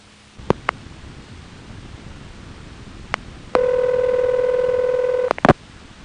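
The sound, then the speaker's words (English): Telephone sounds from a call dialed to the last listing in the Los Angeles telephone directory: a few sharp clicks, then a long, steady, buzzy tone lasting under two seconds, followed by a quick cluster of clicks. “You've dialed the last listing in the Los Angeles telephone directory.”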